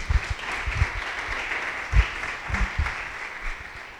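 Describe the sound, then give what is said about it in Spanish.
Audience applause welcoming a guest lecturer at an academic talk: steady, dense clapping that holds at a moderate level throughout, with a few heavier low thumps scattered through it. “les pido un fuerte aplauso para recibir al maestro Vázquez”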